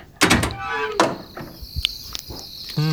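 A heavy thunk and a sliding, clunking rattle as the door of a time-travel vessel is opened, followed by a few lighter knocks over a steady high tone.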